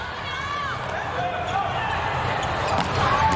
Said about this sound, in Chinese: 好发球啊， 又一个好发球，拦网拦网，中国队三人集体拦网，优势又回来了。